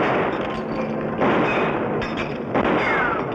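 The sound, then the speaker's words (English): Gunshots in a Western radio drama about Billy the Kid and Pat Garrett ring out as a few sharp, loud reports over a dense, steady wash of noise. “Good shooting.”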